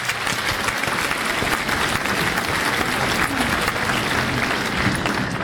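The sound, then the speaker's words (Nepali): Studio audience applause for a guest on a weekly radio quiz programme, continuous dense clapping from many hands that holds a steady level for the whole stretch. “ओहो, बिना राई बहिनीलाई एकपल्ट हामी ताली बजाइदिउँ होइन?”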